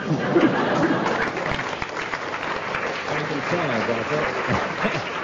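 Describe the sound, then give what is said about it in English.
Audience applause on a panel show greets a contestant's pun-laden joke: steady, dense clapping throughout, with voices talking over its later part. “10 marks there for the audience's rapturous reception of that one.”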